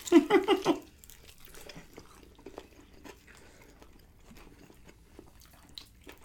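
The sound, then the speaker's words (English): A bite into a crunchy chicken wing with blue cheese gives a quick burst of a few loud crunches, followed by a long stretch of faint, soft chewing. “It's got a real nice crunch to it. Not the meatiest wing I've ever had. But it's a good wing.”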